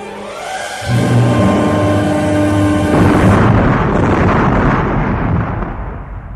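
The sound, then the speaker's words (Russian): A sudden, thunderous explosion bursts in loudly and rolls on as a heavy, sustained rumble that surges again partway through before slowly fading. “Внезапный громовой взрыв подбросил Ивана Терешку, оглушил и кинул в черную пропасть.”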